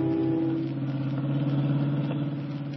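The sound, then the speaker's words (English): Engine of a hot rod jalopy driving along, a steady mid-pitched motor drone with a slight throbbing pulse, continuous and moderately loud throughout. “why are you riding with George Flitt, detective, in his hot rod jalopy?”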